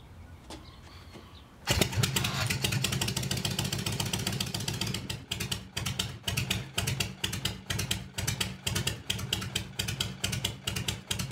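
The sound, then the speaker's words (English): An older V-twin motorcycle being kickstarted: a short quiet stretch, then the engine catches abruptly and settles into a slow, loping idle of heavy, rhythmic thumping pulses that continue steadily. “That's a slow idle. Thoughts on that? That's it's definitely kickstart.”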